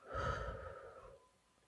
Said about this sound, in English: now we're going to count as we inhale and exhale. So we're going to inhale one, exhale one,